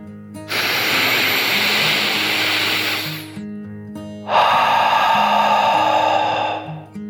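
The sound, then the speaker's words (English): A dragon's slow, deep breath in and then out, two long breathy rushes of about three seconds each, the second slightly louder, over soft, steady background music. “Then he took another deep dragon breath, in and out.”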